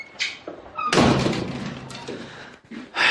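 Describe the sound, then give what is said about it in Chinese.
A room door is shut with one solid thunk that rises out of low background noise. Lighter rustling and faint movement surround the impact. “关上房门”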